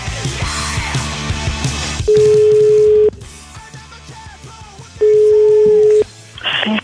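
Telephone line tones as a call is placed: two long, steady beeps, each lasting about a second and separated by a pause, with quieter mixed sound around them.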